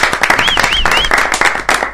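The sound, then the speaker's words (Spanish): Applause for an English teacher on a Spanish-language program: loud, dense clapping from a group of people, continuous and unbroken through the whole stretch. “Un aplauso para el profe de inglés, che.”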